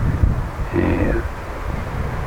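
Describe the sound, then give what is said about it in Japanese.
Strong typhoon wind blows outdoors against a microphone fitted with a homemade windscreen, a dense, low, continuous rumble with slight surges and no clear talk. “台風の余韻の強風が残る中録音しております。”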